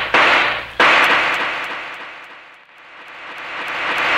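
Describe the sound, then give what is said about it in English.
Gunshots from a gun in a radio drama: two loud, sharp bangs in quick succession, each followed by a long, slowly fading tail, with the sound swelling faintly again near the end. “Well, six shots. That means the gun's empty.”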